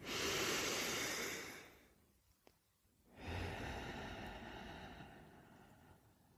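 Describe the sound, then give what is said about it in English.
Deep breathing: two long, soft, airy breaths, an inhale and an exhale, separated by a short quiet pause. Both are faint and breathy, with no talk. “Let's start by taking a deep breath in and a deep breath out.”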